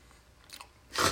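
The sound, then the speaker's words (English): Biting into a fresh-baked chocolate chip cookie, soft and almost brownie-like: a faint crunch comes first, then one loud, crisp bite near the end. “what do you taste? It's a chocolate chip yeah, cookie. Yeah. Almost brownie-esque.”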